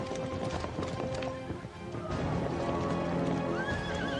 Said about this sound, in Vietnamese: Đoàn kỵ mã dài dằng dặc, Ngự Lâm Quân ở bên hoàng đế ra khỏi hoàng đô